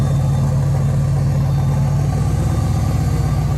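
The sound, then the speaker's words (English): An old truck's engine idles steadily as it backs up at a factory in Brookville, Ohio. A faint, constant fuel pump whine rides above the deep, even rumble. “That's the fuel pump, by the way, that whine.”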